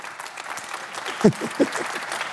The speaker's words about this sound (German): ganz ehrlich, für so wenig Text, so viel Applaus.